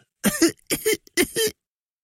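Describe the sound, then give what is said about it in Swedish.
A person imitating a piglet's cough: three short, double-pulsed coughing bursts in a steady rhythm, fairly loud and alone, followed by brief silence. “Griskultingen hostade igen, lite högre denna gång.”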